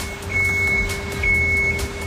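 An ice resurfacing machine shaving the rink with a sharp blade underneath: a steady engine hum with a constant tone and two high, sustained beeps.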